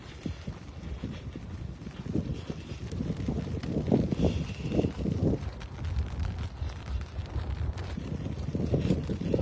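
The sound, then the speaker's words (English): Gusty wind buffets the microphone outdoors on a Saturday night, making a steady low rumble that swells in several stronger gusts, with no speech. “Wow, the wind suddenly picked up, everybody.”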